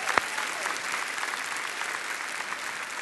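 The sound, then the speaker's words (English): Audience applause at a church service, welcoming viewers watching online: a large crowd claps in a steady, dense stream, with one sharp click near the start. “Would you give them a great big welcome? Put your hands together.”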